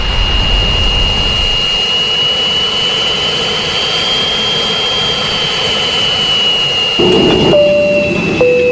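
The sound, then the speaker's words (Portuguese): A Boeing jet aircraft taking off: a loud, steady engine roar with a sustained high whine, shifting in tone near the end. “Vamos apertar os cintos e decolar.”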